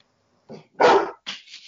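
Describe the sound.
A female dog barks three times in quick succession, short gruff yaps with the middle one loudest.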